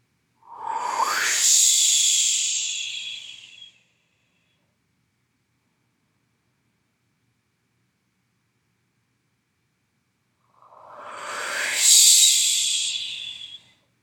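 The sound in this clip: Two deep, slow breaths, each a long airy hiss that swells and fades. A stretch of silence separates the two breaths.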